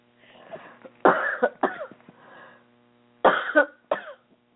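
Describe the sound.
Someone coughs from a tickle in the throat just after a workout. There are a few sharp, harsh bursts in two clusters, with softer breathy throat noise before and between them. No words are spoken.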